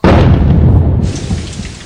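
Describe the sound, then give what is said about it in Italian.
Loud thunder rumbles through a rainstorm as a deep, broad roar with the hiss of rain. It holds strong for about a second, then eases slightly while still rolling. “«Oh no, ci mancava il temporale! Beh, almeno qui sono al sicuro!»”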